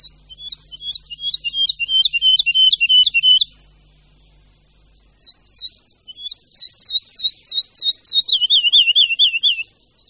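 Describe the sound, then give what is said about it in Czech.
Woodlark song in two high, clear phrases separated by a short pause. The first is a quick series of fluid notes, and the second builds into a rapid looping warble at the end. “Zmínil jsem se, že považuji skřivana lesního za našeho nejlepšího zpěváka.”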